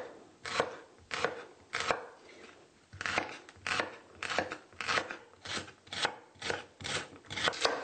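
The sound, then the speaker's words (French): Knife slicing celery stalks on a cutting surface, some cut on the diagonal, a steady run of many crisp, evenly spaced chops, each a short dry crunch, with no talking. “Les branches de céleri seront également tranchées. Si on veut de plus gros morceaux, on peut les trancher un peu à la diagonale.”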